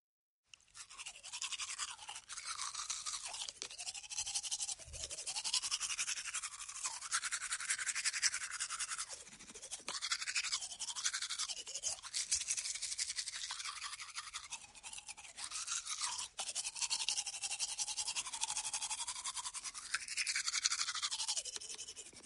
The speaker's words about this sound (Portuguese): Seu rosto já está limpo, é só começar a escovar os dentes.